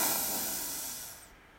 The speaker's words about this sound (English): So let's take a deep breath in.